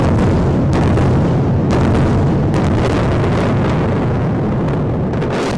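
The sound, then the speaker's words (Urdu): Heavy booming rumble from a series of explosions in Gaza City: a dense, continuous roar with a few sharper bursts standing out, loud throughout. “منظر عام پر آنے والی video میں دیکھا جا سکتا ہے کہ غزہ شہر میں سلسلہ وار دھماکے کیے جا رہے ہیں۔”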